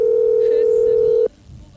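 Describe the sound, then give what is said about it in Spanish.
A ringing tone on a phone call that goes unanswered: one steady, fairly loud single-pitched tone lasting just over a second, then it cuts off to low background noise. “No me atiende, che. Para. Tarda. Estoy acostumbrado igual que no me atiendan el teléfono.”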